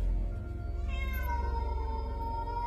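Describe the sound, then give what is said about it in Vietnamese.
A cat on a porch lets out a long, mournful meow: a single drawn-out cry that slides downward in pitch over a steady low drone. “có con mèo ở ngoài hiên nó phóng xuống. Nó nhìn chăm chăm vào thằng Tâm rồi kêu lên những tiếng thê thiết.”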